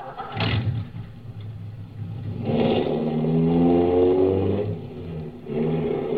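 A car engine starts and the car drives off on the way to a plant. A brief loud burst is followed by a longer engine drone whose pitch rises as it accelerates, eases off, then swells again.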